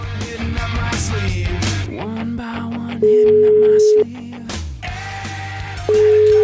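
A ringback tone sounds as a phone call is placed: two steady, loud beeps of about a second each, playing over soft background music.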